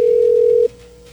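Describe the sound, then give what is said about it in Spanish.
A telephone tone sounds as a call is being dialed: a loud, steady pure tone that drops abruptly to a much fainter continuing tone just past halfway. “Estamos marcándole a Alexis que dijo que lo llamáramos. Vamos a ver si nos contesta”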